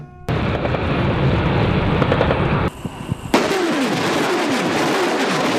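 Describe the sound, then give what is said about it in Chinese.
Several howitzers of an artillery battery fire together at dusk. A sudden loud blast rolls on as a sustained roar, breaks off briefly, then a second sharp blast is followed by continuing heavy rumbling. “榴炮连数门火炮同步激发，多发炮弹扑向目标区域。”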